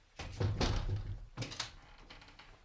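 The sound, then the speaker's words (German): A window being opened: a short cluster of rattling thumps and scraping, then a second brief knock. The sounds are moderately loud and over quickly. “Kann man das Fenster aufmachen? Ja, bitte.”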